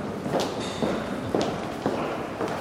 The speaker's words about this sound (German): während er über den breiten Gang im 2. Stock geht